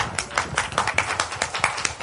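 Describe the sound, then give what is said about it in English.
Clapping from a small group gathered in a circle, a series of sharp, uneven claps with brief gaps between them, fairly loud and with no talk over it. “You can do a fairy dust, too. But clapping is more fun.”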